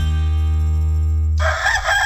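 A rooster crowing, a loud, harsh, raspy call that bursts in partway through after a sustained low, buzzing tone.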